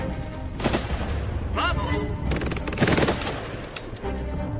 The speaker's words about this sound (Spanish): La ametralladora se queda sin munición.